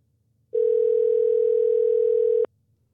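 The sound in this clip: A telephone dial tone while a call is being placed, a steady, unwavering mid-pitched tone lasting about two seconds on its own before cutting off abruptly.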